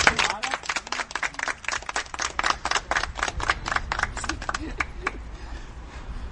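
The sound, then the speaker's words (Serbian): A small group clapping to celebrate a student's progress, with quick sharp claps that keep going for about five seconds before tapering off. “Moramo jedan aplauz, ovaj veliki napredak.”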